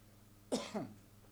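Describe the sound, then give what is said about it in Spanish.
A single short, harsh cough from a person who has had a cough for several days, heard alone with no talk. “¿Y la tos de quién es? ¿De qué juega la tos? La tos viene ya de hace varios días”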